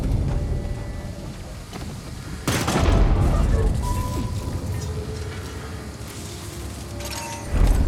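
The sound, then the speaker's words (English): Grenade explosions in a video game: a loud booming burst partway through and another at the very end, over a constant rumbling, crackling battle din with some talk. “Grenades. Real grenades, people.”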